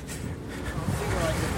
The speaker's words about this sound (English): That noise you hear behind me is the wind. I can't block out all of it with this headset, but we're doing the best we can.